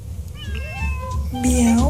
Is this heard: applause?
no